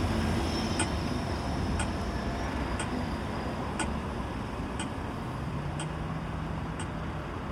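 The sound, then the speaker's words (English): Seven evenly spaced ticks from a pelican crossing signal, about one per second, sharp, high and faint over a steady low rumble of street traffic. “this is the noise of the Pelican crossing here, by the way. It's really good.”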